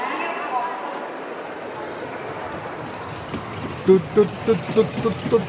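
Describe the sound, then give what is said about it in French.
A diesel engine starts up slowly. Near the end a run of regular low chugs comes in, and voices talk throughout. “Il met du temps à démarrer, mais quand même. C'est un diesel. Hein, c'est un diesel, c'est un peu comme nous.”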